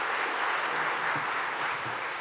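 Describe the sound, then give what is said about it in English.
A church audience claps to welcome a guest preacher, producing a dense, even patter of applause at moderate loudness that holds steady from start to finish. “So could we welcome him with a round of applause? Please go.”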